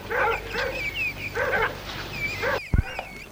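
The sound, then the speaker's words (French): Dogs barking during a search of a park and its outbuildings: several loud, strained barks and yelping whines in separate bursts, ending with a dull thump. “Là, en plus des appareils, il y a des chiens.”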